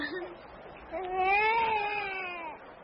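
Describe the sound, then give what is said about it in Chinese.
A baby boy found in a basket cries in a wavering, high-pitched wail. One sustained cry of about a second and a half follows a brief whimper. “孩子一见生人就哭了”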